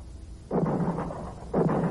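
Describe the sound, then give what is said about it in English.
Two loud shotgun blasts from a farm across the road in rural Ontario. Each blast starts sharply and leaves a lingering rumble, the second following about a second after the first. “What was that? Sounded like a shotgun. Someone must be clowning around. It came from the farm across the road.”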